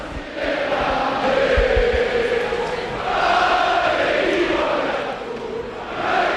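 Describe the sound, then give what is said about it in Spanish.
Stadium crowd roaring in celebration after a 1-0 football win over Barcelona in Vitoria, a dense, sustained wall of cheering and chant-like shouting that swells and dips in waves, with no single voice standing out. “Pues este es el sonido de la esperanza en Vitoria después de una victoria épica ante el Barça por 1-0.”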